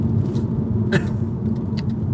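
Diesel car engine running as a loud, steady low rumble that holds throughout, with a couple of brief sharp clicks over it and no clear rise in pitch.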